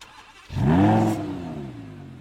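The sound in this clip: A car engine revs up abruptly after a brief quiet start, its buzzing tone swelling loudly, then easing back down to a lower, steadier drone that carries on to the end.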